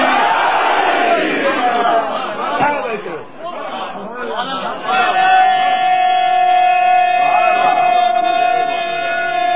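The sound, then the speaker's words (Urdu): Massed voices of a crowd shout and chant the religious slogan Nara-e-Haidari, loud and dense, with a brief dip midway before the chanting swells again into a sustained, ringing tone. “کہاں بیٹھے ہو نعرے حیدری،”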